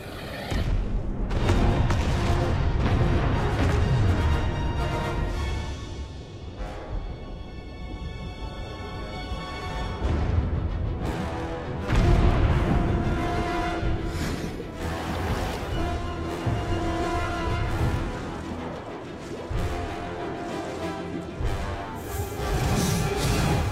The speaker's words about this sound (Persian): قربان، بمبای عمقی دارن میرن بالا.